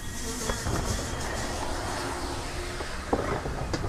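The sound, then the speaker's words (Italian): The Orient Express train arriving at Munich station, a steady low rumble of rolling rail cars with a few sharp clicks of wheels over track joints, no voices. “Monaco di Baviera, ore 9:24. L'Orient Express per Istanbul, via Vienna, Budapest, Belgrado, Sofia, è in attesa fino ai 8. Tempo di attesa 12 minuti.”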